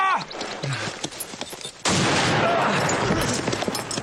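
Gunfire in a dubbed film scene, starting with a brief noisy burst and then breaking into a dense, loud, continuous volley of shots that holds steady to the end.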